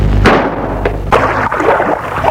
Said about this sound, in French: Jean-François sort son pistolet et tire.